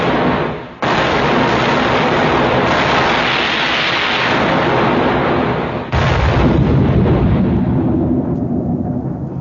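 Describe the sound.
Cannon fire from a ship's guns in a naval period radio drama: two loud booming blasts, the first at about one second and the second near six, each trailing into a long roaring rumble.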